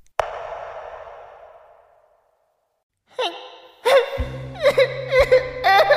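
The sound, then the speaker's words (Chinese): A voice imitates a small octopus monster crying in coarse, whimpering sobs. A long breathy sigh fades out, and after a pause come many wavering, high-pitched whimpers over a steady low tone. “章鱼怪嘤嘤嘤的哭声还在脑海中继续，不管是那只庞然大物，还是眼前小巧玲珑的章鱼，哭声都是一样的粗嘎难听。”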